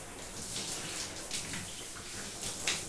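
Warm water is rinsing a light styling product out of someone's hair. A soft, steady splashing hiss runs throughout at low volume, with no talking.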